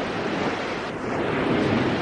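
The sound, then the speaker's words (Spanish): Waves breaking on a beach shore in a breeze, a steady, fairly loud rushing wash of noise that fills the whole two seconds without distinct separate breaks. “oía como el murmullo de las olas cuando se mueren a la orilla de una playa y como silbidos de brisa”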